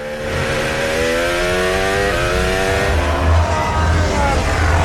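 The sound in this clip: A racing car accelerates hard on boost during a timed lap, its engine whine climbing steadily in pitch with a brief stutter partway. A dense, loud roar runs throughout.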